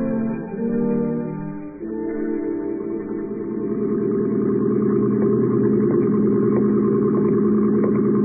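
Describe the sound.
A motor launch's engine runs steadily on a night outing on the water, a low, even drone with a layered harmonic hum that grows slightly louder and fuller partway through, with no voices.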